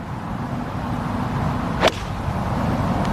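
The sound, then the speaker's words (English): A single sharp crack of a golf club striking the ball on a tee shot at a professional golf tournament, one brief swish-like snap standing out from a steady, even background hum. “Great tee shot. Oh, and a great iron shot.”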